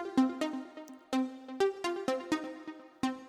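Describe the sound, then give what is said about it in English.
A piano-like pluck synth is played from MIDI in Logic Pro. Many short, bright plucked notes with quick decays form an uneven melodic line, heard alone. “And this time I've got this piano pluck sort of sound, and it sounds like this.”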